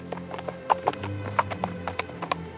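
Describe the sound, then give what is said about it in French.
Hooves clip-clopping as a horse walks along at a lively pace, making many crisp, regular knocks over a low, steady background hum. “Le cheval marchait gaiement.”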